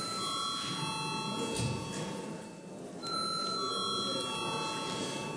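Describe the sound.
Electric bell ringing in a parliamentary chamber to call members to a vote. A steady, high metallic ring runs through the whole clip and dips briefly midway.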